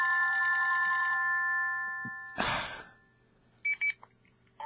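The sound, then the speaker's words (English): A telephone rings with a call from the university: a bright electronic ringtone of stacked sustained tones lasts about a second, then stops, followed by a click, a brief rustling burst and two short beeps. “Can you believe it? It's the university again calling me.”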